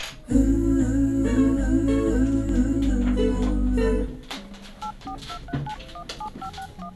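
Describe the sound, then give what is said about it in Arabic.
Touch-tone dialing on a telephone to place a call: a quick series of short, evenly spaced dual-tone beeps that follows a louder sustained tonal passage, which cuts off partway through. “رح اتصل بزيرك”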